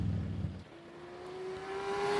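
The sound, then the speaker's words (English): Low, throbbing rumble of a V-twin motorcycle engine for a moment, then a thinner engine whine that climbs slowly and steadily in pitch while growing louder. “rumble of a V-twin.”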